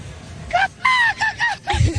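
A person imitates a goose honking as a team mascot sound effect for a goose-decorated stall. A quick series of nasal, wavering honks sounds over low background noise.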